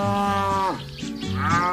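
A cow mooing during milking: two drawn-out, strongly tonal moos with a short pause between them. The first dips in pitch at its end, and the second swells loudly, with no talk.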